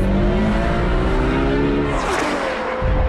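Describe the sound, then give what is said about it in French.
A Ferrari Roma's naturally aspirated 800-horsepower V12 engine revs, a loud, continuous harmonic engine note that holds steady, then shifts and roughens briefly near the end. “La mélodie du bonheur, une vocaliste si caractéristique à plus de 8900 tours qui rend l'harmonie de ce V12 atmosphérique, fort de 800 chevaux, unique au monde.”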